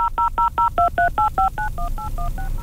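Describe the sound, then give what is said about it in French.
Telephone keypad tones dialing a cell phone, a rapid run of many short, clear beeps that start as distinct separate pulses and then run together more closely. “On va tenter de... On va tenter de joindre Benoît.”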